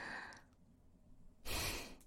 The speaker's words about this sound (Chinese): 好像呼噜又打起来了。